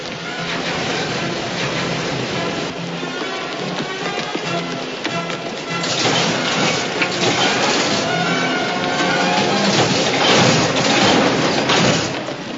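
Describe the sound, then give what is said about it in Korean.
A subway train runs in a film chase scene, giving a dense, steady roar of rumble and rattling hiss that swells slightly louder midway, with no speech. “달리는 지하철 안에서 칼리토는 또 달립니다.”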